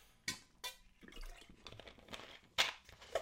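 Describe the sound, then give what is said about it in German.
Quiet sip of a drink taken during a pause in conversation: a few sharp wet clicks and soft gulping and swallowing noises spread over about three seconds, with no talking. “Sorry, einen Schluck trinken.”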